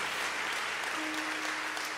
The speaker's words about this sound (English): Oh, once again, can you clap your hands and thank the Lord for Brother and Sister Urshan?